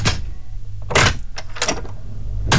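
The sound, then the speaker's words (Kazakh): Door thuds and rattles from home entrance doors: a few sharp, unevenly spaced bursts with quieter scraping between them, and no talk. “Двери Ситидің сенімді әрі сапалы есіктері сіздің жайлылығыңыз бен үйіңіздің қауіпсіздігіне арналады.”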